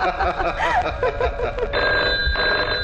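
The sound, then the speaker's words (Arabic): A telephone ringing with a steady, bright electronic trill in two ring bursts, following a moment of brief vocal sounds at the start. “روح يا اخي بقى، رد على التليفون”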